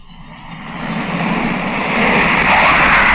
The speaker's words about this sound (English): The sound you hear is a twin jet British Canberra bomber as it left the coast of Ireland at more than 500 miles an hour.